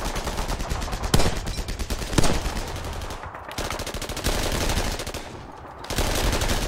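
Rapid gunfire fills the whole stretch, with many sharp shots in dense, uneven bursts and only a brief lull near the middle and another shortly before the end. The shots are loud and constant, with no talking.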